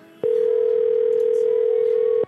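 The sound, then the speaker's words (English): A telephone dial tone while placing a call to a cell phone, one continuous steady tone at a single pitch, loud and unbroken for about two seconds, starting and stopping abruptly. “So I'm calling from Eric's number. Okay. And this is John's cell phone, so you'll see that it's Eric.”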